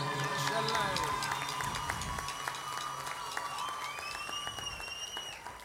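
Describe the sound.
Audience applause at a concert for the band's electric guitarist: a steady wash of crowd clapping and cheering, fairly faint, with some tonal musical sounds running through it.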